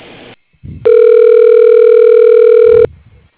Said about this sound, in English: If you know the extension of the person you wish to speak to, you may dial it now. Otherwise, your call will be connected to customer service.